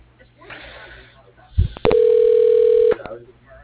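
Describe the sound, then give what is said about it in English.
A telephone line tone as a call is put through to voicemail: a click, then one steady mid-pitched tone lasting about a second, with faint talk around it. “if you want to shoot me over to his voicemail, that'd be great”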